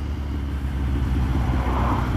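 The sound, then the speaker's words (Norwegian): The steady low engine drone of a motorcycle being ridden through a traffic jam holds at an even, moderate level with no talk. “Ja, ja, jeg har motorsykkel.”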